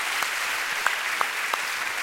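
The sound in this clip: Audience applause: steady, dense clapping throughout at an even loudness, with a few sharper individual claps standing out and no voices.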